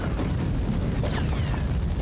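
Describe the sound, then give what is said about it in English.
A hut burning with ammunition exploding in the flames makes a dense, continuous low roar. Crackling texture is woven through it and stays steady and loud throughout, with no separate bursts standing out. “He runs back to the others on the rock above the camp and they watch the hut burn. The ammo explodes in the flames.”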